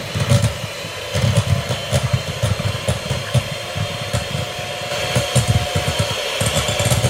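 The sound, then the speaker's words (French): An electric hand mixer runs on first speed while whipping, giving a steady, buzzing motor drone that stays loud and even throughout, growing slightly stronger near the end. “Donc, soit au batteur à main ou au batteur électrique, mais préférable faire un batteur électrique, ça va beaucoup plus vite. Première vitesse. Et c'est parti.”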